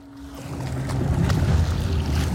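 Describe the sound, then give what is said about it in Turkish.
Water sloshing and lapping against a waterlogged raft rocking on the water, a steady splashing wash that builds slightly in loudness, with faint wind. “Salım, yolculuk boyunca su aldı ve durumum öncekinden daha tehlikeli. Daha çok sallanıyor.”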